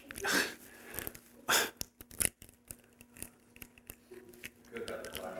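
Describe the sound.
Sealed top being peeled off a communion cup: a few short, crinkly tearing bursts of plastic, with sharp little clicks and quieter rustling in between as the lid resists.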